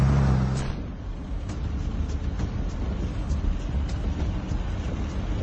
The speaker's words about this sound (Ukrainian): Максимальна швидкість і концентрація – таким є рух на всіх дорогах південніше Запоріжжя.